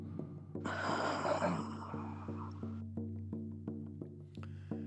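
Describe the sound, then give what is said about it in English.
One long, soft, airy deep breath is drawn during a guided chakra meditation. It rises over a quiet, steady low hum marked by faint regular ticks, and the hum continues after the breath fades. “Let's take a deep breath all the way down to your belly button and hold it and breathe all out.”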